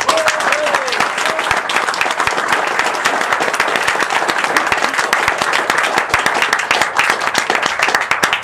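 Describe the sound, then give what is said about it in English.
Sustained applause from an audience welcoming a guest speaker to a lecture: dense, steady clapping that holds at a fairly loud level for the whole stretch without dying away. “So please put your hands together and give a thunderous welcome to all the way from America, Mark Babo.”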